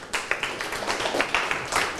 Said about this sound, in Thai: ปรบมือให้เพื่อนครับ